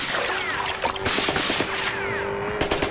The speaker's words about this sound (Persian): و تیراندازی ادامه داره.